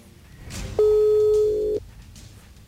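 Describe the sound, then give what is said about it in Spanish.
A telephone line gives a single steady ringing tone of about one second while a call is dialed, and quiet line hiss comes before and after it. “La primera persona que le vamos a marcar en vivo ahorita.”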